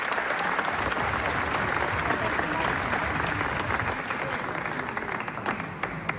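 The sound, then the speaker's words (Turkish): Audience applause for a singer leaving the stage at a Turkish folk music concert: a dense, steady wash of many hands clapping that holds an even level for about six seconds and thins slightly near the end. “sevgili Mehmet Demirtaş'ı coşkuyla ve gönülden alkışlarla uğurluyoruz”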